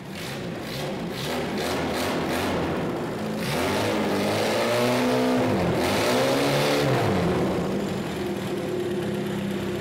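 A car engine with an oil leak revs hard, moving from a rough rumble into several loud revs that climb and drop in pitch, then settling into a sustained roar.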